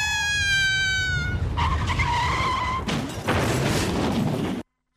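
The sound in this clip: Tire screech of a speeding car skidding on a bend with failed brakes, a loud sound effect: two sustained, high harmonic squeals followed by a noisy rushing skid that cuts off abruptly.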